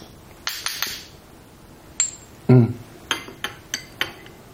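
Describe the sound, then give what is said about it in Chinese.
A spoon clinks against a glass while stirring ginseng powder into a drink: many sharp, bright clinks in irregular bursts, with a louder knock in the middle and a quick run of taps toward the end. “搅拌。你看吧，这个粉一冲啊，它结块了，看到没有？”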